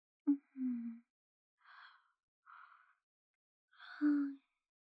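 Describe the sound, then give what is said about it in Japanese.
A big human yawn, heard as a few breathy, groaning voiced bursts that end in a longer, fuller drawn-out exhale. It is faint overall, with no speech. “すみません、大きなあくびが。”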